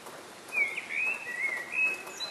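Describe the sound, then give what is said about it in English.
Birds sing in an early-morning dawn chorus, heard as a few thin, high whistled phrases that rise and dip. The song is faint over a steady soft hiss. “This is the sound of a bird's dawn chorus.”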